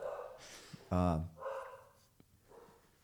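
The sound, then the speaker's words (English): One short, loud dog bark cuts in between stretches of quieter talking voices. “So, that's the promised bark that I warned you about.”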